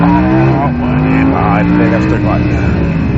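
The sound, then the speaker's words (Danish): Naturally aspirated V10 engine of an Audi R8 revving, a loud continuous roar with rising harmonic tones, while a voice talks over it. “fordi som I nok kan høre, så er det her en sugemotor. Det er en suge V10.”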